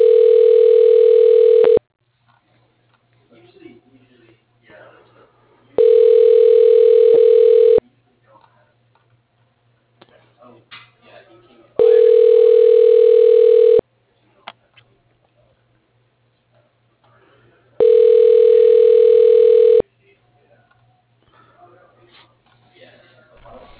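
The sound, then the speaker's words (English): Telephone ringback tone while a call is dialed: four long, steady, buzzy tones of about two seconds each, spaced by roughly four-second gaps, with a faint low hum and small clicks between rings. “Okay, dialing.”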